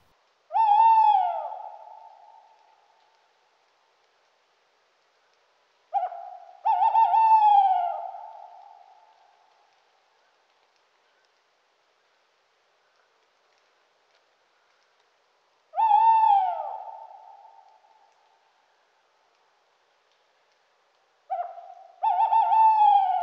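An owl hoots four times, each a low, breathy note that fades slowly, separated by long silences. Two of the hoots open with a brief short lead-in note.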